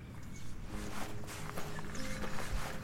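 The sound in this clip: Footsteps of people walking down a woodland trail: a steady run of many soft, scuffing steps at an even loudness throughout, with no voices.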